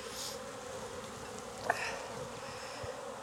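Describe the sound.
Honey bees buzz in an open, strong hive with drone brood and plenty of pollen, a faint, continuous droning hum with one brief tick partway through.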